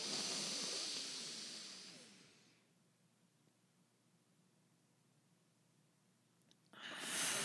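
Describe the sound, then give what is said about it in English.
A deep, hissing inhale during a card-reading session: a long breathy rush that fades out over about two and a half seconds, followed by near-silence until another breath starts abruptly at the end. “While you do that, let's take a deep inhale and think about your question.”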